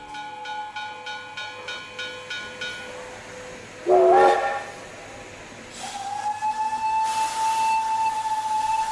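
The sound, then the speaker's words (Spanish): A steam train at a railway station in a radio drama: a brief wavering steam whistle sounds, then a long loud hiss of escaping steam builds under a steady whistle-like tone. “Señor Verne, no le esperaba en la estación. Muchísimas gracias por venir hasta aquí a recogerme.”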